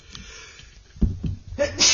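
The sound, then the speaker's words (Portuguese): A few abrupt sneezes from a brief sneezing fit come in quick succession, with short gaps between them. The final burst is louder and more drawn out than the earlier ones. “Só que me deu uma crisezinha de espirro, mas tudo bem, não tem problema.”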